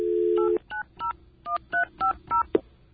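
Telephone keypad tones as a phone number is dialed: a steady dial tone, then a quick series of short, evenly paced two-note beeps, ending with a brief click.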